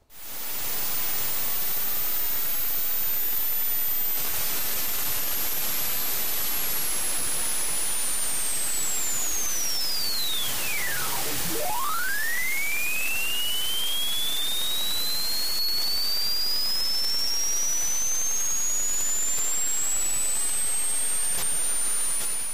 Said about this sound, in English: It recorded audio as it entered the atmosphere, but operators turned the instrument off before it reached the surface because they were worried that it might interfere with the landing. Here's the recording.